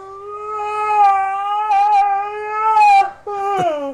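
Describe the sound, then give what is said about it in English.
A dog's yawn comes out as a drawn-out, whining vocal tone that holds a fairly steady pitch with slight wavers for about four seconds. It breaks off briefly near the end, then returns as a short squeak that drops away. “or a man's best friend. That's a dog.”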